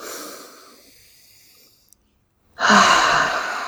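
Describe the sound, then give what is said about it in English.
A person takes one deep breath during a calming, guided relaxation. A soft breath fades into a short silence, then a loud, full, airy exhale rushes in and holds steady to the end. “Deep breath.”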